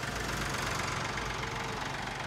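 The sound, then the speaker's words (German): A tractor engine runs with a steady, low, knocking idle rumble, fairly quiet and continuous throughout, with no other sounds standing out. “Bist du schon hier mit dem Trecker? Ja, ich bin mit dem Trecker.”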